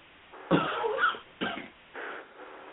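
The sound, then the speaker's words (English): Coughing from someone under the weather: a few rough, harsh bursts separated by short pauses, fairly loud and heard alone with no talk. “I don't mean to keep coughing, but I'm a little under the weather today”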